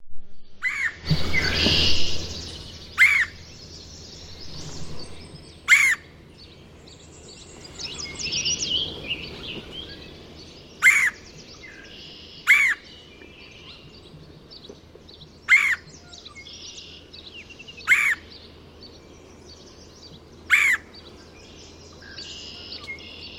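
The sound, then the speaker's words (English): A grey catbird sings: seven sharp, high notes spaced a few seconds apart, with softer chattering between them over background noise, after a brief loud rustling burst at the start. “Grey catbird.”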